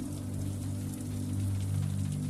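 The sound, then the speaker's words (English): Rain pelts steadily on windows in a continuous, even hiss and patter that holds at a constant level throughout, with a low steady drone beneath it. “The rain pelts on the windows”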